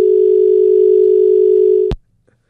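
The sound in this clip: A telephone dial tone after a caller's line dropped: one loud, steady, unbroken tone holds for about two seconds, then cuts off abruptly with a click, leaving near silence.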